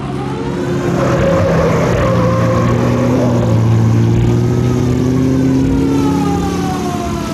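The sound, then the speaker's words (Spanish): A police patrol car accelerates at full speed. The engine roars loudly and steadily while wailing, siren-like tones slowly rise and fall above it. “El chofer obedece hundiendo al máximo el acelerador de la autopatrulla.”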